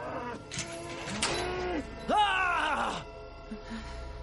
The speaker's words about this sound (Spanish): Entran a un establo y matan a las vacas con el hacha y ella con el cuchillo.